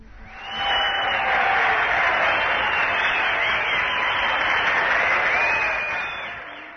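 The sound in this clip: Applause in a radio studio: a steady wash of clapping that rises in after a moment, holds evenly for several seconds, then tapers off near the end.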